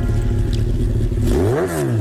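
Loud, continuous engine drone of a vehicle being driven fast, with low rumbling harmonics that shift briefly in pitch near the end. No voices.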